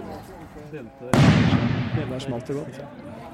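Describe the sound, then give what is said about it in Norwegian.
A single sharp, loud bang from a gunshot during an armed emergency drill cuts through a man talking in Norwegian, then decays slowly while the talking continues. “Nå smeller det jo her, og så ser vi masse folk som rykker fram her nå rykker fram mot denne eh, pakkelandsbyen hvor det da åpenbart skjer skyting.”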